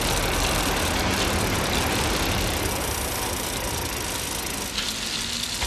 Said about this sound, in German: Die drei Fragezeichen fuhren kreuz und quer durch Santa Monica.